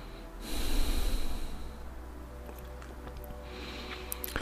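A slow exhale during a guided breathing exercise: a soft, airy rush of breath that swells and then thins out over a couple of seconds, with no talking.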